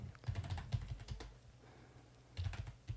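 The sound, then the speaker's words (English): Faint typing on a computer keyboard comes in two bursts of quick, irregular key clicks separated by a short pause. “Can you open another tab and just write Drago. ACNH.”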